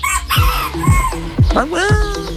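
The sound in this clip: A rooster crows loudly in a series of harsh, repeated calls, ending in a longer drawn-out crow.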